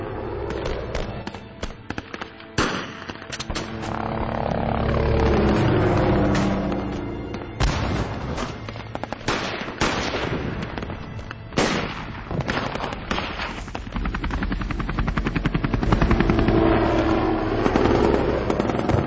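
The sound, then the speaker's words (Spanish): Gunfire with a first shot followed by a volley of bullets overhead: loud, dense bursts of cracks and booms that continue without pause throughout. “sonó el primer disparo, seguido de una sinfonía de plomo que se cernió sobre nuestras cabezas”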